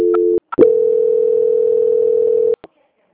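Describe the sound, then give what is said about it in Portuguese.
A telephone tone plays while a call is being transferred: a loud, steady mid-pitched hum cuts out briefly, then resumes for about two seconds before stopping into silence. “Eu vou transferir agora para o setor de qualidade bem rapidinho, ela vai fazer as últimas confirmações, tá? Aqui. Transferência.”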